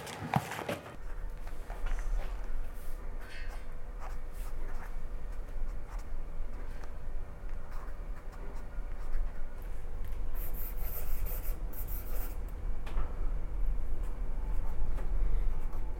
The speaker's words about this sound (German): Das kommt direkt raus, wird da jetzt eingeklebt und Sie schreiben mir da sogar ein kleines Sätzchen dazu.